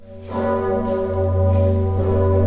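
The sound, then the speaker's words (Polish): A large historic church bell, swung by twelve ringers pulling ropes, booms with a deep, sustained tone. The strike comes in early, then the ringing swells and holds steadily, rich with layered overtones. “Dzwon Zygmunta no jest jednym z piękniejszych instrumentów. I to wszyscy podkreślają, turyści dzisiaj, którzy przyjeżdżają i słuchają tego dzwonu, jak my kończymy pociągać za sznury”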